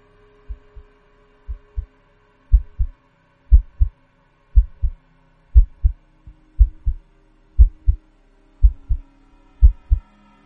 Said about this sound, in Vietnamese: bây giờ cô cơ hồ nghe rõ nhịp tim của mình tựa hồ như đang đập bình bịch, không thể nào mà khống chế nổi